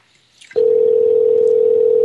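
A telephone line tone on a call that goes unanswered: after a brief faint blip, a single steady, loud, mid-pitched tone begins and holds without a break to the end.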